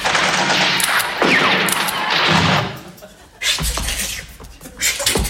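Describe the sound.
Gunfire from troops in close ranks firing at will on command: many ragged, overlapping loud cracks and crackling bursts, a short lull partway through, then more shots.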